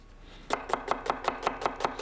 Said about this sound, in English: So just take the end off, both sides, cut it in half and peel.